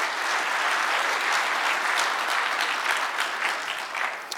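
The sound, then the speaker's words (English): A church audience claps hands during a morning service, producing sustained, dense applause that stays steady and fairly loud throughout with no talk over it. “Let me hear your hands this morning.”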